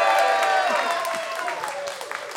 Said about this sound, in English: Some people probably cheered for it. They don't even know what it is.